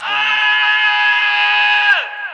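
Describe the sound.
A high-pitched pop-style vocal scream, loud, steady and sustained for about two seconds, then bending sharply downward in pitch at the end.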